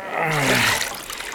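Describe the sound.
River water flowing past a floating wooden cradle comes as a brief rushing whoosh that swells quickly and then thins out.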